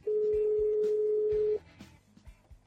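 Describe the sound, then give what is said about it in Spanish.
A steady telephone dial tone holds evenly for about a second and a half before cutting off, followed by quiet line noise as a call to local police is placed. “Voy a llamar a la policía local a ver si ellos saben algo.”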